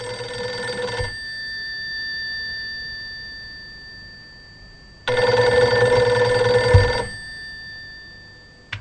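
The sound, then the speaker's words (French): A telephone rings twice with a sustained electronic tone. Each ring lasts one to two seconds, and a long quiet pause separates the two. “Vous ne quittez pas deux secondes, je vais passer un petit coup de fil à mon supérieur.”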